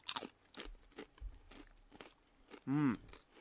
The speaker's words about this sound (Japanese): なんかほんとスナック菓子みたいね、エリンギとはちょっと程遠い感じ、うん、いただきます。